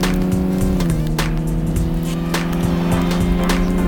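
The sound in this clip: Racing video game car on an asphalt track, its engine droning at a steady high pitch with a few sharp knocks and scrapes as it crashes at the finish line, with no voices.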